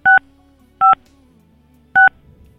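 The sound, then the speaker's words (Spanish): Three short telephone keypad tones beep at uneven intervals, each a crisp dual-tone burst standing alone over a faint low hum. “A ver, vamos a volverlo a intentar. Vamos a comunicarnos con Julio.”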